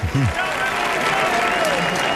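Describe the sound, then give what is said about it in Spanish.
Audience applause at a club DJ event, a dense, steady wash of many hands clapping that holds loud for the whole stretch, with voices heard over the start. “Así que un aplauso, por favor, para todos”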